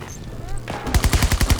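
Automatic gunfire from a gun in a video game: a loud, rapid burst of many evenly spaced shots fills the second half, after a quieter stretch of low background.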